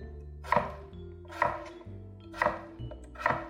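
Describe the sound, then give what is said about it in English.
Knife chopping a potato into half-inch cubes, giving a few sharp, distinct chops that land at an uneven, unhurried pace, each cut a crisp thunk with a short bright attack. “Then I'll flip it 90 degrees, and I'll do about 1/2-inch chops down the potato. And I'll do that on both sides of my potatoes.”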